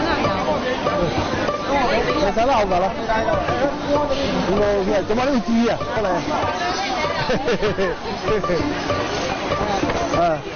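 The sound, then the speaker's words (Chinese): Steady crowd hubbub at a busy seafood market in the early morning, where fresh fish is being picked out for a fish-ball shop; many overlapping voices chatter continuously at a loud, even level with no pauses. “清晨的海鲜市场是他的主场，他要为店里挑选最新鲜的鱼货。”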